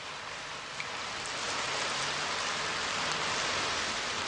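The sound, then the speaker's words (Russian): Steady rain from a training rain sound effect, switched on as a classroom demonstration. It is a continuous even hiss of falling drops that holds at a constant level throughout, with no voices. “А я пока включу учебный дождь.”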